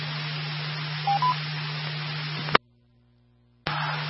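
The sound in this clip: Two brief touch-tone dialing beeps, used to link a radio repeater, sound over hissing radio static and a steady low hum. The static then cuts off abruptly to silence for about a second before returning.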